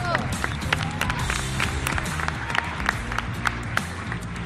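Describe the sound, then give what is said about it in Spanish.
Children applauding after a school presentation: scattered, uneven claps mixed with chatter and movement, fairly soft with sharp individual hand strikes poking out. “Y este aplauso, estos son los tiempos que tenéis que ir aprendiendo.”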